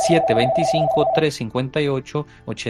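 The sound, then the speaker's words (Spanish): A steady electronic phone-line tone marks an incoming call on a Spanish-language call-in show. It holds one pitch under talk for just over a second, then cuts out while the speaking continues. “Tenemos una llamada.”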